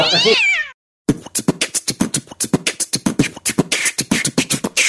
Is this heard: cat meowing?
yes

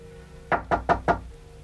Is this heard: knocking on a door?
yes

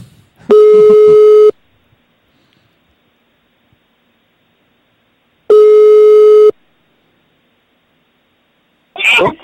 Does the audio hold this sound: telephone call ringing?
yes

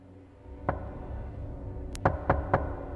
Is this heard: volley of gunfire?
no

